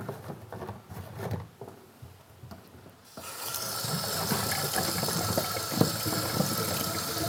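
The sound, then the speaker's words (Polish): Water runs from a tap as cubes are rinsed, a steady splashing gush that starts about midway after quieter handling noises and then continues evenly to the end. “I teraz będziemy płukać kostki w wodzie.”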